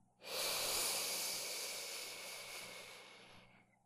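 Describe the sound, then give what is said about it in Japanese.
One long, deep breath during guided deep breathing, heard as a steady airy hiss that swells quickly, holds for about three seconds and then tapers off, with no talking. “そのままもう一回、深呼吸をしよっか。吸ってー、”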